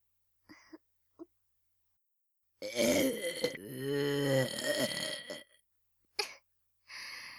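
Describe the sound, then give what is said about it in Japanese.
A long, deliberate burp, low and voiced with a wavering, gurgling pitch, stretches over several seconds. A couple of brief soft sounds come before it, and short bursts follow in otherwise quiet surroundings. “私のおゲップを受け取ってください。”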